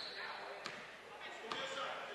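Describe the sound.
A basketball dribbled on the court in the final seconds of a women's game, two sharp, distinct bounces spaced under a second apart, heard beneath a commentator's steady talk.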